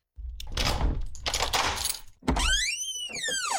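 A door being opened: a dull thunk followed by a long creaking tone that rises and then falls, after a stretch of earlier rustling noise.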